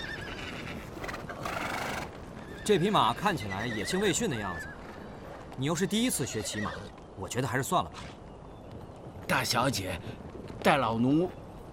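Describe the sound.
A spirited, untamed horse whinnies several times, with high shaky neighs rising and falling, while people talk loudly over and between the calls.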